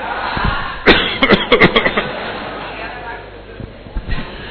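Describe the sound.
A speaker's feigned cough during a talk at a religious gathering: a quick run of several harsh bursts over about a second, with speech around them.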